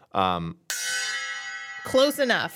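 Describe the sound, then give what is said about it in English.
A gong, struck once in place of a drum roll, lets out a shimmering metallic tone that rings for about a second. Brief talk is heard just before the strike and again right after it. “We have a gong for this. I can't do the drum roll anywhere near the microphone.”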